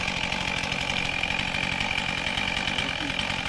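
A chainsaw cuts the felling notch into a standing tree during forestry work. The engine gives a continuous, buzzing drone that stays even throughout, with no clear breaks.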